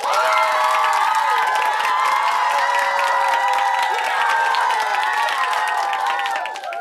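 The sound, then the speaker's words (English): Applause and cheering for players who did well at a guessing game: steady clapping under bright cheering voices, sustained for several seconds before dropping off at the close. “You did such a great job playing our game. Give yourself a big round of applause.”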